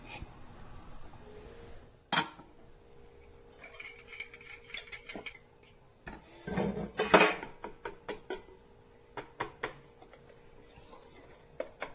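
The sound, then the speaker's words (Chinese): Faint clinks and scrapes of a utensil against a bowl while sifted flour is stirred into cake batter, many irregular light taps and ticks scattered over a quiet background. “我们不要太过度的去搅拌它，好。好，只要没有这个粉气呢就可以了啊。”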